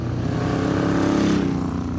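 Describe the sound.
A long motorcycle's engine runs in a steady, buzzing drone with a dense harmonic growl, holding an even loudness throughout without clear revving.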